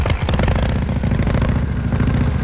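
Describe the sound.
A motor vehicle engine, just started after the petrol tap was opened, runs with a loud, steady, low, throbbing rumble from start to end. No voices are heard.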